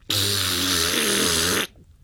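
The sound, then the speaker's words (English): A single raspberry blown on a clarinet: one loud, buzzy, rasping blast lasting about a second and a half, with a brief dip in pitch midway before it stops abruptly. “She picked it up and blew a raspberry in the direction of the bowl.”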